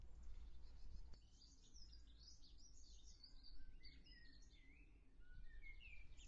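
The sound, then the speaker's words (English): A blackbird sings outside a shed in faint, fluid warbling phrases that repeat over a steady low background rumble. “Can you hear that blackbird in the background?”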